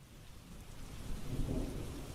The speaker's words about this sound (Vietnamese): Ngoài trời lúc này mưa lại bắt đầu rơi tầm tã.